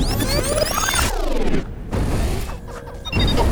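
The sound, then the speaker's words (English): A punch landing on a creature in a sci-fi battle sound effect. A heavy, boom-like impact sits among loud sweeping whooshes and crashing noises, with no talk. “Why did you punch it?”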